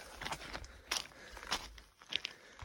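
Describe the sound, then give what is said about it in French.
Footsteps of a hiker wearing sandals on a rocky trail on Corsica's GR20, with about four crunching, scraping steps in a steady rhythm and gritty gravel noise between them. “Ça demande un petit peu de, on va dire, de marche en conscience. On est obligé de regarder là où on met les pieds. Mais c'est très agréable.”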